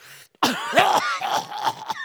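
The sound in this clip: A person imitates coughing and choking, producing several raspy, strained voiced bursts in an uneven rhythm, loud against an otherwise quiet background.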